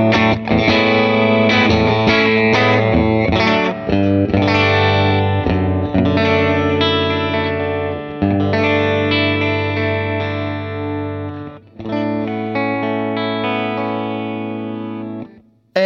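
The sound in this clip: Clean electric guitar through a Vox AC15 amp on the normal channel, with the tone control rolled well back to tame its brightness. Sustained, ringing chords play loud and steady, with one brief break near the end.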